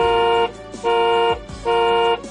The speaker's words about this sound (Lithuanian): Man atrodo, keliu kažkas atvažiuoja.